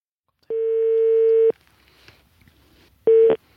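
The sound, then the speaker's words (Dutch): A telephone ringback tone sounds as an outgoing call is placed. One steady, mid-pitched tone lasts about a second, followed by a quiet pause, then a second identical tone that is cut off shortly after it starts. “En nou ja, laten we maar eens gaan bellen dan.”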